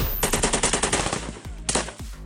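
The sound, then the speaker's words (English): Live-fire gunshots from U.S. and Philippine Marines during squad attacks in the Kamadag 3 exercise in the Philippines. A rapid burst of about ten shots is followed by a short pause and one more brief burst. “In the Philippines, U.S. and Philippine Marines conduct live-fire squad-centered attacks during Kamadag 3.”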